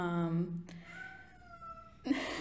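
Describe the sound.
A pet cat gives a loud, drawn-out meow at the start, followed by a quieter sustained tone and a sudden brief noise at the end.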